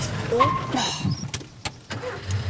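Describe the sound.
Car engine rumbles low and steady during a driving lesson as the clutch is let out and gas applied, with a voice briefly heard early on and a few sharp clicks.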